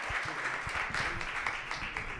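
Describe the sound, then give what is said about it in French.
Applause from an audience at a public gathering as groups are called up to the platform: a dense, steady crackle of many hands clapping, holding at an even level without a break. “Et on peut les applaudir parce qu'ils en ont pris plein à la gueule”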